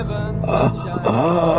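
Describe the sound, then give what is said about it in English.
A voice imitates a pained groan from a wounded man lying on a bed in a makeshift medical shack. It is a low, drawn-out moan with a wavering pitch, voiced continuously for under two seconds with a brief dip midway. “And he lets out this pained groan.”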